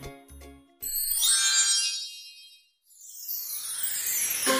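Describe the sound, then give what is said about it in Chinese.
Small bells jingle in two bright, shimmering bursts, the first fading to silence before a second swell builds again; a short low tone comes just before the bells. “小铃铛叮叮当当”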